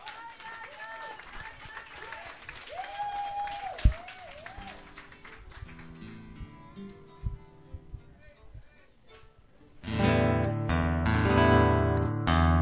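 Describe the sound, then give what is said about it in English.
Applause and clapping from an open mic night audience welcoming a comedian to the stage. After a stretch of talk, the clapping swells abruptly into a loud, dense wash near the end. “Please put your hands together. Welcome our friend, Jay Willis.”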